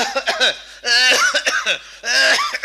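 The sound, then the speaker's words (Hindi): A voice imitates an ordinary cough with a few rough, throaty, voiced bursts that come in quick clusters separated by short pauses. “हमारी और आपकी खांसी कैसी होती, बड़ी साधारण, किस तरह से”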